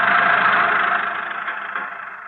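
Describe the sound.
A car engine running during a drive makes a steady, smooth drone that holds even and slowly fades a little in loudness.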